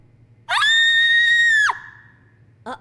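A girl screams in surprise in a shower room: one loud, high-pitched shriek held for just over a second, then cut off sharply, followed by a brief second cry.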